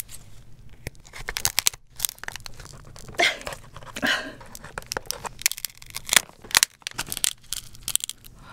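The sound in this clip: Shell being peeled from a boiled 7.5 kg giant king lobster: irregular crunchy cracks, rips and crinkling tears that come in uneven bursts over several seconds, with no clear talk.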